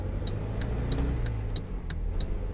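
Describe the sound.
Car engine heard during an overtaking manoeuvre on the road, a steady low engine drone joined by a regular series of sharp, high ticks at an even pace.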